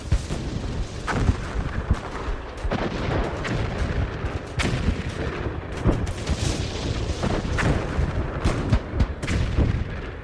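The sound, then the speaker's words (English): Artillery guns firing at the end of World War I, November 11th, 1918: many heavy booms and sharp blasts in dense, irregular succession, loud and continuous from start to finish, with no voices. “It's in stereo. So these are their artillery guns firing.”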